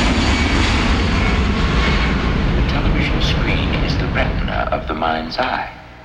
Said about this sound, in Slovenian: Želimo vam uspešen vzlet in prijetno potovanje.